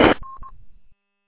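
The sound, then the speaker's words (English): Two short touch-tone dialing beeps from a telephone keypad follow a brief burst of hiss. They are steady, mid-pitched electronic tones, and then the line falls silent. “I got to make a phone call.”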